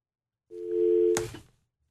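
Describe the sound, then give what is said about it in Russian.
A telephone line tone from a call that fails to connect: one steady, level tone lasting under a second, ending in a sharp click as the line drops. “Не получилось взять звонок, сбросились.”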